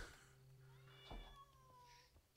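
A cat meows a few times, in clear, drawn-out calls over a steady low hum, with no talk.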